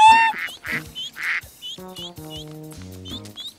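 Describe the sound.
A cartoon duck quacks, with several nasal, buzzy quacks in quick succession followed by a run of steady, tonal honking notes that step lower in pitch.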